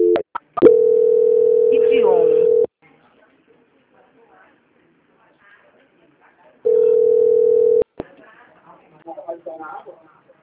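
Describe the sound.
A telephone ringing tone plays while a call is transferred: a steady, low-pitched tone lasts about two seconds, then a long silence follows before a second, shorter tone. Brief voices come before the tones and after them.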